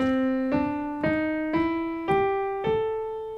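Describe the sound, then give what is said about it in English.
A major pentatonic scale with an added flat third, played as six ascending sustained notes. Each clear tone rings into the next with no talk over it. “Now going back to the major pentatonic scale, to that we're going to add a flat 3 from the root note. So that'll sound like this.”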